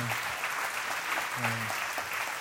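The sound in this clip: Audience applause welcoming a guest speaker, a steady, dense clatter of many hands clapping. A voice briefly surfaces beneath it.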